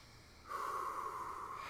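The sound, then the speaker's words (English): A deep breath drawn in through the nose during a guided breathing exercise: one long, steady, airy inhale that rises out of near silence and holds at a moderate level for over a second. “I want you to take a deep breath in with us.”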